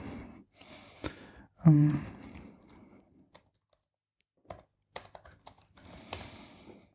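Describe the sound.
Typing a search into the Amazon site on a computer keyboard: irregular bursts of light key clicks separated by pauses, with a brief breathy vocal sound early on.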